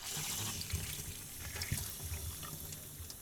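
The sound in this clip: Tap water runs in a steady, faint, hissing stream with small splashes as strawberries are washed before going into a blender with bananas.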